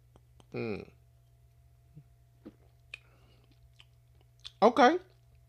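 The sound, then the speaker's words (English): Sips from a can of alcoholic sweet tea with 5.5% alcohol: a few soft mouth clicks and swallows, set between two brief voiced murmurs at the start and the end. “I got some Best Damn Sweet Tea, right? Now, this got like a 5.5% alcohol per volume. And say it tastes like sweet tea. I haven't had any of these, so I'm going to check this out. Let me see what this tastes like here.”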